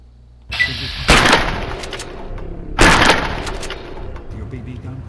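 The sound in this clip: Camera shutter snaps as a picture is taken of a rat roach. Two sharp, loud bursts with noisy tails land about two seconds apart over a steady background hum.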